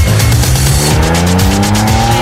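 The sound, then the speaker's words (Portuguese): A Toyota car's engine revs hard with rising pitch as its tires squeal loudly, a sustained screech over the climbing motor drone. “pegar a chave do seu veículo, pôr no contato e ó...”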